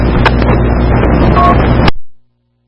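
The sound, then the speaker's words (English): Wind buffeting a microphone on a breezy day with gusts around 13, producing a loud, dense, rumbling roar that stops abruptly and trails off into silence. “I've had a high wind of 13.2, so it's definitely a little breezy back in coming today.”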